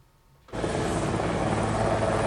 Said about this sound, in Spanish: El presidente llegaba en helicóptero